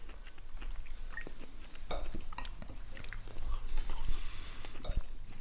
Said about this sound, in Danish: at vi skal prøve kantarellerne